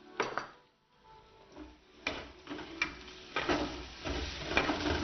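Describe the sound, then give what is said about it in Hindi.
Onions and chopped garlic frying slowly in a pan over low heat give a soft, steady sizzle. A few light clicks and scrapes of stirring come through over it. “धीरे धीरे brown हो रहे हैं, इसको जल्दी ना करें, इसको आराम से होने दें ब्राउन प्याज को। धीमी आंच पे”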